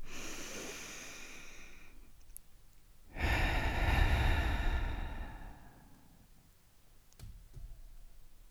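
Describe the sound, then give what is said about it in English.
A slow, deep breath drawn in and let out, soft and airy. The breath swells to its loudest in the middle and then fades away, with a faint click near the end and no talk. “Let's take our traditional breath in and breath out.”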